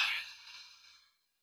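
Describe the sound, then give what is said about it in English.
A slow, long breath out through the nose: a soft, airy hiss that starts strongest and fades smoothly to silence in about a second, faint and alone. “And a slow, long breath out through your nose.”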